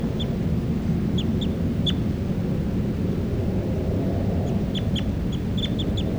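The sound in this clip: A recorded bird calls loudly in short, high chirps that come in two scattered clusters, over a steady low rumble of background noise.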